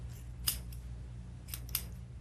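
Barber's scissors cut hair in a few short, crisp metallic snips at an uneven rhythm, faint against a low steady background hum.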